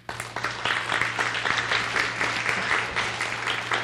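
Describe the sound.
Applause from an audience welcoming a speaker onto the stage at a morning session, quickly swelling from a few early claps into full, sustained clapping from many hands that stays even to the end.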